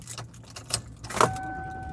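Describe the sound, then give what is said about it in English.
A car being driven produces a low road and engine rumble throughout, with a brief metallic jangle and a thin, steady whine rising over the rumble toward the end. “And I am driving home.”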